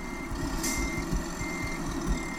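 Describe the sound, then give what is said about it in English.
Truck reversing beeps in a truck-driving video game: a steady, rapid run of short repeated pulses over a constant low engine drone, with no talking. “and reverse so that I can get to like the menu. The where do you want to park it menu.”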